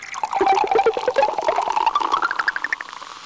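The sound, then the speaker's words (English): Cola poured from a Coca-Cola bottle as a sound effect: a loud, continuous bubbly gurgle and fizz whose pitch climbs steadily as the liquid fills, with no voices. “You'd probably recognize her Coca-Cola pop and pour sound,”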